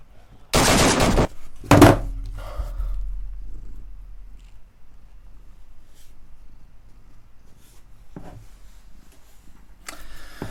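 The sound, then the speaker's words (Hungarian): Gunfire in a video game: loud, dense bursts of shots near the start, followed by a low lingering rumble and a couple of fainter bursts later. “Aj, ezért nem szabad ész nélkül lövöldözni, mert magunkra húztunk egy játékost, aki most kinyírt mind a kettőnket.”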